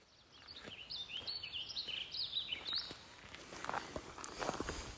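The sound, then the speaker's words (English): Footsteps walking through a natural forest crunch softly and irregularly, and light bird chirps and calls ring out high above them through the first half. “We're walking on this uh, natural forest.”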